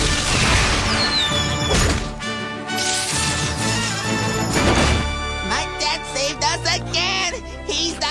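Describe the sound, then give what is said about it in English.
Loud crashing and thudding of a tree toppling at a zoo, set among busy tonal sound effects that continue throughout. “Help! Danger! This tree is about to fall and crush us!”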